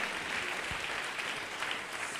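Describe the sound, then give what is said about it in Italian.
An Italian church audience applauds during a service, a continuous, dense clatter of many hands at a steady level throughout. “guida tu questo servizio nel nome di Gesù Cristo, che applaudiamo benedetti in eterno.”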